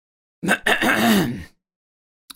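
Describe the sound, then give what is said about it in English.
A man clears his throat for attention at a gathering: a short rough burst, then a drawn-out voiced ahem lasting about a second, followed by silence and a faint click. “One man, muscular, powerful, imposing, handsome, intelligent, stands, clears his throat for attention.”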